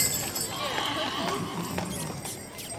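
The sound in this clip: Horse hooves clip-clopping as a horse pulls a holiday carriage ride around a city block lit with festive lights; a few sharp, sparse hoof clicks sound under steady background chatter and street noise.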